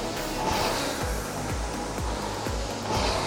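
A rowing machine flywheel spins with a steady airy whoosh during a warm-up, pulsing with regular low surges about twice a second.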